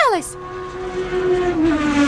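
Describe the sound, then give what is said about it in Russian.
Racing cars speed past a grandstand: one engine's whine falls sharply in pitch as it passes, then a steady high engine drone carries on and swells near the end. “Здесь столько людей, и все они следят за машинами, которые мимо них проносятся.”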